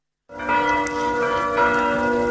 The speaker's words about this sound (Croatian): Teško je danas ovdje slušati ova zvona, a ne smiješ im prisustvovati.